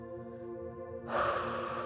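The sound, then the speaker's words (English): A deep inhale through the nose, an airy rushing breath that begins about halfway through and lasts to the end, over a steady sustained musical tone. “So inhale.”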